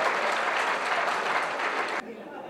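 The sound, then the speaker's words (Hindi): Audience applause at a Hindi poetry reading: dense, steady clapping holds for about two seconds, then stops abruptly, leaving a much fainter murmur. “और तालियां आपकी अब चाहूंगा।”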